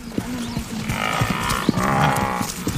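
Low, moaning bellows of an African buffalo with an old wound on its back, during a lion hunt, several grunting calls overlapping in a continuous stretch of lowing.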